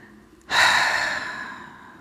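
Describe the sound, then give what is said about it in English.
A single deep exhale during a guided relaxation breathing exercise. It begins as an abrupt, breathy rush, then fades slowly over about a second and a half, with no talking. “let's release from our consciousness all thoughts that create fear and negative energy. Do that right now on your exhale.”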